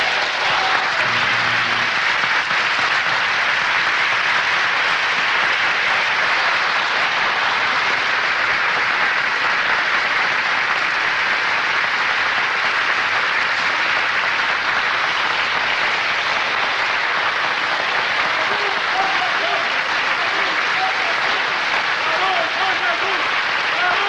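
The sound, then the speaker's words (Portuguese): Sustained audience applause at a religious sermon: a dense, even wash of many hands clapping steadily for the whole clip, with no pause or break. “A esse Jesus, as nossas palmas.”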